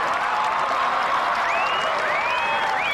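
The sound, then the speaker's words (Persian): A crowd applauds a girl honoured as this year's bird rescuer. The clapping is dense and steady, with a few rising whoops breaking through in the second half. “همه تشویق کنید ناجی پرنده امسال.”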